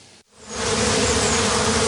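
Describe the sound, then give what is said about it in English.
Honeybees buzz around their hives in a community garden among downtown buildings in Omaha, Nebraska, on a sunny March day. After a brief gap the dense, even drone swells up and stays loud and steady. “checking on his honeybee hives.”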